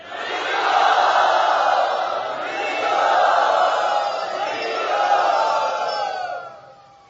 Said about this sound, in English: Let us very enthusiastically welcome him tonight.